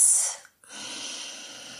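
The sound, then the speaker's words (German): Slow breathing in and out through the nose during a children's yoga exercise: a steady airy breath, a brief silent pause, then a longer, softer breath that continues to the end. “Atme langsam durch die Nase ein und langsam durch die Nase wieder aus.”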